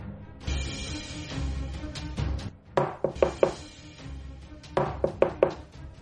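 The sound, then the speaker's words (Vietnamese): Knocking on a door from outside: two clusters of sharp, rapid knocks, each a few hard raps, over a steady low background. “Tiếng gõ cửa chuyển đến từ ngoài cửa.”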